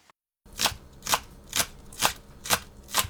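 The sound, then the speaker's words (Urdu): Knife slicing green onions into thin rounds on a cutting board. After a brief silence come six crisp, evenly spaced chops in a steady rhythm. “ہری پیاز کو آخری سروں سے باریک گول گول ٹکڑوں میں کاٹ لیں۔”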